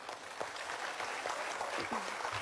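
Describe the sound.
Faint audience applause at a ceremony, a soft, continuous patter of clapping hands mixed with a little low voice sound.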